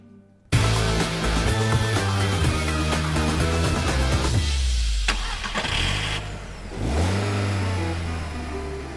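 A hearse's engine starts and revs with a loud, sustained mechanical roar. Its pitch sinks, then climbs again as the throttle opens, with no voices heard.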